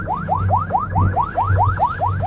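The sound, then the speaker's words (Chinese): A coast guard patrol boat's siren, switched on as the boat speeds up, wails in rapid repeating rising sweeps over a steady low hum. “加速了，加速了， 开警报”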